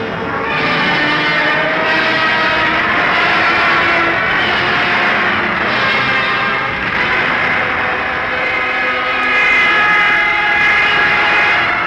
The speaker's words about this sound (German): Stukas greifen an.